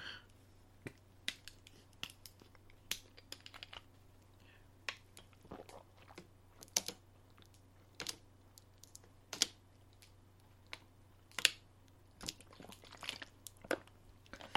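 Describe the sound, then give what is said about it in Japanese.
Sharp crinkling clicks from a thin plastic 680 ml bottle of barley tea being squeezed and dented, scattered irregularly as many quiet, crisp pops over a low steady hum. “先の薄いペットボトルなんで、あのベコベコになっちゃいますね。”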